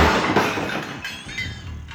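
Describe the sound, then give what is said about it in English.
A television set smashed against a wall in Surrey gives a dense, loud crash of shattering glass and breaking casing that rings on for about two seconds, with no voices. “they must have had real fun smashing a telly up against a wall in Surrey.”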